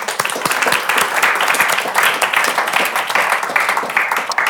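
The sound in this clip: Audience applause welcoming a guest at an evening event about an opera: dense, steady clapping from many hands, loud and even throughout with no break.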